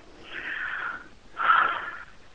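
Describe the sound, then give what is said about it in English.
A man breathes heavily during a phone call: two long, loud, hissy breaths with a short gap between them, alone without speech. “Sir, if you want to take a moment to breathe... It sounds like you've been running up and down stairs very heavily.”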